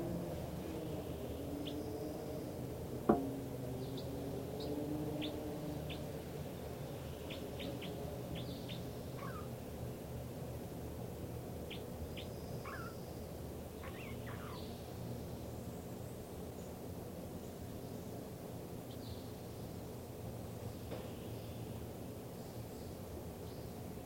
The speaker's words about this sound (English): This recording now, this is the song of bird 305.